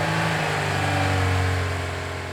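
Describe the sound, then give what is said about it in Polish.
A car engine hums steadily at a low pitch, its tone shifting slightly midway, then fades a little toward the end as the car drives off. “Tata zapalił silnik i pojechał.”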